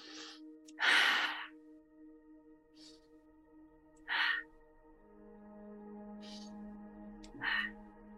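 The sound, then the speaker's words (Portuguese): Three deep breaths in a guided breathing exercise, each a short breathy rush spaced a few seconds apart, over soft, steady background music tones. “Vamos respirar bem fundo. Quem puder fechar os olhos, respirar lá no fundo três vezes.”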